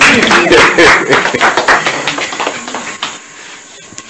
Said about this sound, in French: Applaudissez pour le Seigneur.